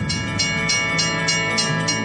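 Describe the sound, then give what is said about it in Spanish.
A train moving along railway tracks gives a steady, loud rumble with a regular, evenly spaced clatter of wheels repeating throughout, with no talk. “No exponga su vida sobre las vías. Si el tren está en marcha, no camine junto a él y nunca pase por debajo o entre los vagones.”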